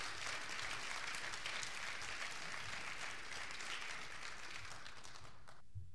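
Audience applause for a distinguished professional after a memorial address: a steady, even stream of many hands clapping that stops abruptly just before the end.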